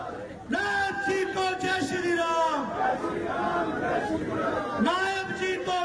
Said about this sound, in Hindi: तो आप जरा स्वागत देखिए और नारों में जय श्री राम के नारे सुनिए।